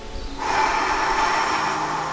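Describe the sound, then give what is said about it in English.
Breath is exhaled through both nostrils during alternate-nostril breathing for sleep. After a short quiet start, a soft, steady airy hiss rises and holds unbroken to the end. “Inhale with me fully, both nostrils. Exhale.”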